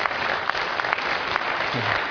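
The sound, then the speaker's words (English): A church audience claps in a dense, steady burst of applause that carries evenly from start to end with no voices standing out. “You're clapping now.”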